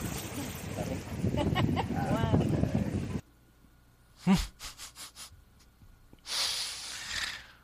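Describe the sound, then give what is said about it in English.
Wind buffets a phone microphone in a recording from Jamaica. A rough, loud roar covers muffled voices for about three seconds. “I don't know about you at home, but I couldn't understand a word of that. I just heard a lot of wind”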